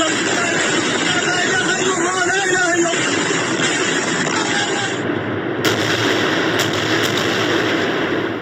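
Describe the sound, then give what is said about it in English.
Missiles exploding in Gaza overnight amid heavy fighting: a dense, continuous roar of booming blasts and crackling rumble with no quiet gaps, with voices mixed in. “Listen and look at those pictures. You are looking at Israeli missiles exploding in Gaza overnight”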